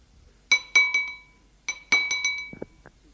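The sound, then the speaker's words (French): A spoon taps on a plate in two quick runs of bright, ringing clinks, a few sharp strikes each with a short metallic decay, followed by a couple of faint duller knocks. “Le père frappe avec sa cuillère sur son assiette.”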